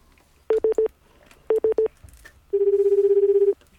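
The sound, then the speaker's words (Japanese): Telephone tones as a call is connected: two groups of three short, even electronic beeps, then one longer steady tone, loud and clear with no talk over them. “次の方ちょっと電話番号書いてあるので、はい、ちょっと先にじゃ電話をつなげて聞いてみましょう。”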